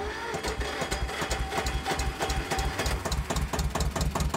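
Motor of an amphibious duck bus starting on dry land, heard as a continuous rhythmic mechanical chugging with many fast, even pulses at a moderate, steady level.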